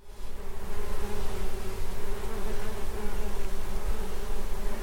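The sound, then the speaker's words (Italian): Buzzing of dozens of bees forms a dense, continuous drone with a steady low hum and layered overtones. It stays even in loudness throughout, with no voices. “Si tratta del ronzio di decine di api”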